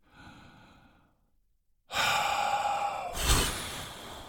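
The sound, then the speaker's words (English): Deep breath exhaled during a guided breathing exercise: a soft, faint breath, a brief silence, then a long, loud, airy exhale that swells slightly near its end. “Let's take a good inhale and we're going to exhale fear.”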